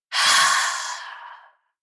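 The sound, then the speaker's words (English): A single long exhale through an open mouth during a guided meditation: a soft, breathy rush that starts strongly, then gradually fades over about a second and a half into silence. “And open your mouth and exhale through your mouth and release.”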